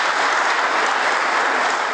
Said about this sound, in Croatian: Aplauz je to vladajućih poslanika za naprednjačkog ministra